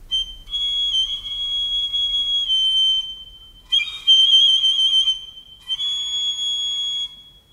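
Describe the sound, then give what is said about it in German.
A handheld pipe whistle blown in three long, high, steady blasts with a slight warble, the first two lasting a few seconds each and the last one shorter. “Hätte ich eine solche Pfeife, so würde ich Tag und Nacht pfeifen.”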